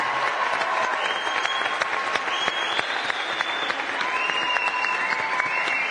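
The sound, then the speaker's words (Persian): An audience on a competition show claps steadily for several seconds, a dense, even wash of applause with no pauses. “الان رأی گرفتی، سه تا سفید داری میری بالا، باید خوشحال باشی. دست بزنیم برام.”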